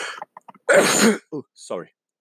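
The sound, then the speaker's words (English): A person sneezes once, a loud, harsh burst of noise in the middle, with short, softer voiced sounds before and after it. “So sorry for my sneeze.”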